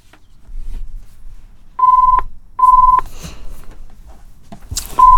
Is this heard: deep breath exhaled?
no